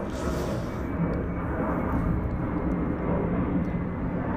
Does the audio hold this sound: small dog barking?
no